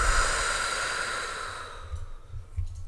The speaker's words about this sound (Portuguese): Canalizar assim, expelir assim e depois fazer umas, umas respirações longas e profundas.